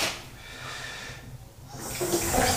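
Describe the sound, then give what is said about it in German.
Water runs from a tap to soak a bag, a steady hissing rush that grows louder and brighter in the second half, with no talk over it. “Ich mache jetzt erstmal die Tasche ein bisschen einweichen hier.”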